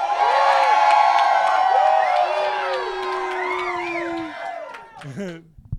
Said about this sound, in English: the people you hear in the background for those thousands of people who are not here with us are the staff for Camp Boitiwa. Let's give it up for you guys.